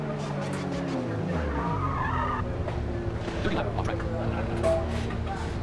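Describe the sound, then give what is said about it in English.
A racing car in a touring car racing video game brakes to a halt in its team's pit box; the engine note falls in pitch as it slows, with tire squeal and a steady engine drone continuing afterward. “Your car comes to a halt in your team's pit box.”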